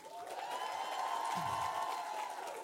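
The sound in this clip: An audience applauds the crew working on a live evening show, a steady wash of clapping that holds at an even level throughout.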